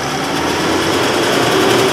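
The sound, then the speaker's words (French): Steady engine drone from a tractor pulling a hay baler through a straw windrow in a field, a continuous mechanical hum with a busy rattling texture and no clear breaks. “Alors, on est au fond de l'andin, entre le tracteur et la botteleuse.”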